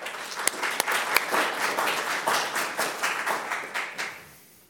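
Audience applause welcoming a discussion panel on 1968 and a 1968 exhibition: dense, steady clapping from many hands with a few sharper claps standing out, then fading away at the end.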